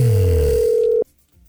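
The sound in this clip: A phone line rings as a radio host calls a listener: one steady, buzzy mid-pitched ring tone holds for about a second, then cuts off abruptly, leaving faint low noise.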